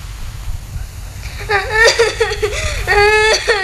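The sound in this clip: A child cries and whimpers in a few wavering, high-pitched bursts over a low background rumble. The crying starts after a quieter opening and swells toward the end.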